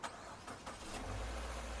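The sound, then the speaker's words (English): A car engine starting after a failed repair attempt: a few sharp cranking clicks, then a steady low rumble as the engine catches and keeps running. “Was that the engine?”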